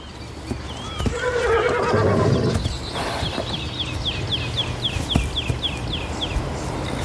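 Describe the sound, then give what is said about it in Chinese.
A wild horse from a herd of about 400 lets out a loud, wavering whinny, followed by a run of quick, high bird chirps repeating over a steady background noise. “这个野马群大约有400匹野马，他们的未来取决于领头的种马。”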